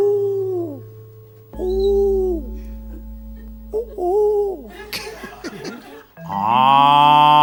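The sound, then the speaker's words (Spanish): Drawn-out mooing calls, presented as an African cow in a savanna scene, sound one after another over a steady low drone. A louder, brighter call comes at the end. “¿Qué es eso? Una vaca africana.”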